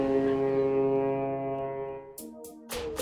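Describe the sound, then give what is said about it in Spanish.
Ship's sonar sound effect marking the end of a radio break: a deep, sustained horn-like tone rich in harmonics that slowly fades over about two seconds, followed by a few short, sharp bursts of noise. “El sonar del barco ha detectado el fin de la pausa.”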